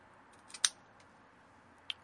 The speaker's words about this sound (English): my standard here is a V-cut. So I'm going to take a V-cutter. I'm going to position it sort of lengthwise across the pigtail cap, make one clean cut, and I'm good.